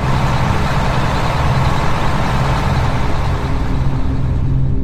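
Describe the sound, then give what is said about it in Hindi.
An old bus driven fast through dark, deserted, unfamiliar country, its engine and road noise forming a loud, steady, unbroken rumble heavy in the low end, with no voices. “Driver को भी शायद बहुत जल्दी थी स्थान पर पहुंचने की इसलिए वो भी बस को तेज रफ्तार में भगाए जा रहा था”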